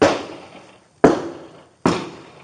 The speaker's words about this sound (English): Shooting out the rear window toward my direction.